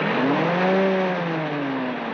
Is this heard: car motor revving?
yes